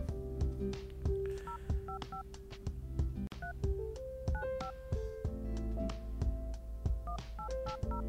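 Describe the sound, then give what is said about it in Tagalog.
Telephone keypad tones as a number is dialed for a call: many short, quiet two-tone beeps tapped out in quick, uneven succession. “Tatawag muna ako ha.”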